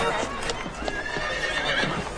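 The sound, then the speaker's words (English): Horses neigh and hooves clip-clop on a busy town high street where soldiers gather. Whinnies rise over steady hoof beats, with a murmur of indistinct voices mixed in. “The soldiers are looking at horses in the middle of the high street.”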